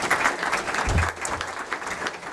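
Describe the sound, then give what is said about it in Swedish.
Audience applause at a Swedish public debate, a dense, even spread of many clapping hands that stays fairly constant for the whole short stretch. “Men en applåd för Martin också.”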